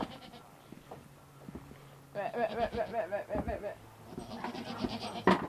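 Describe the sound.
Goats bleating at milking time: several quavering, nasal bleats in quick succession from midway on, with a person talking quietly beforehand and between them.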